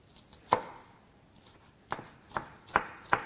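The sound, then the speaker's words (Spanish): Knife chopping food into small squares for a vegetable broth: five sharp cuts on a board, one alone, then after a pause four more in a quicker, steady rhythm. “Voy a cortarla también en cuadraditos, así como la que acabo de añadir. Vamos a picarlo bien.”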